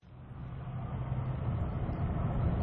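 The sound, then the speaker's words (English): Car driving along a deserted road into Kirkuk, a faint, low road and engine rumble that builds slightly and then holds steady. “Well, we're driving along a deserted road into the city of Kirkuk.”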